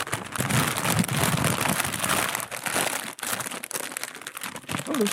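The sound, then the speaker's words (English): Tough packing tape is torn from a cardboard box, producing a rough, crackling rip that runs almost continuously, broken by a couple of short pauses partway through. “So, okay, well, I'll open it here. I'm happy to do so. Ooh, this is some tough tape you've got on here.”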